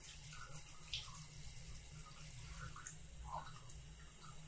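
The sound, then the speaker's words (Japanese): Water runs steadily from a tap as someone is rinsed off at bath time, a soft, even rushing that stays faint throughout with no talk. “じゃあ流していくからの。”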